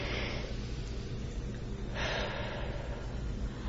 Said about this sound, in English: just take a deep breath, just in through the nose, out through the mouth. One more time.